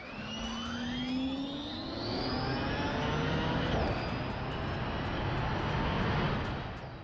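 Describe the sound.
High electric whine from an electric race vehicle powertrain rated at over 1,100 lb-ft of instant torque, with several tones climbing in pitch over a dense, sustained roar that swells and eases.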